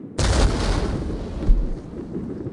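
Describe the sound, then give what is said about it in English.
A field artillery gun in a firing battery goes off with a sudden heavy boom. A long rumbling roar slowly decays, and a second thump swells about a second later. “We take you now to the battery of the 22nd Field Artillery. Range, 32 meters. 32 meters. Projection, 39 degrees. 39 degrees. Fire!”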